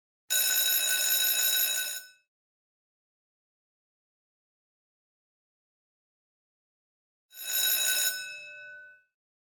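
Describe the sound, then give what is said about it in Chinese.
A school bell rings on a school sports day in two bright, shrill metallic bursts of about two seconds each, separated by a long silence, the second trailing off more gradually, with no voices. “对不起，刚才是学校铃声，现在是休息时间。”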